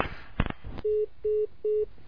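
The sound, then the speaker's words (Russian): Three short, steady electronic phone tones, evenly spaced and identical in pitch, signal an incoming call to a call-in studio, following a brief burst of noise. “У нас еще один звонок в студии. Да, у нас еще звонок.”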